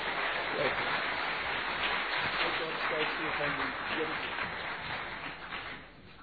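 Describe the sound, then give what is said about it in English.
Audience applause and hand clapping welcoming a guest speaker to the stage, a steady, dense wash of clapping that holds evenly and thins slightly near the end, with a voice talking over it. “So let's put a big warm hand clap. Welcome him this afternoon.”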